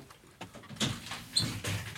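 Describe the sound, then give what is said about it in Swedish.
A window is opened to let air into a warm room with a few soft, quiet clunks and scraping knocks spaced out over two seconds. “Kan vi öppna fönstret in hit?”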